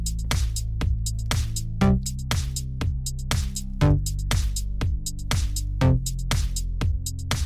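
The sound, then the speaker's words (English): An 80s synth-pop bass patch plays MIDI notes in A minor, each note one bar long. Deep, punchy bass tones with bright upper harmonics pulse in a steady rhythm, with stronger accents about every two seconds and no voices. “I've chosen the 80s synth pop bass, and I'm going to give it a rating of 5 because I think it's fantastic.”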